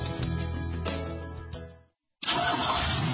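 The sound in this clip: A car engine starting: the starter cranks with a few rhythmic pulses that fade into a brief silence, then a loud, full engine roar bursts in and holds steady to the end.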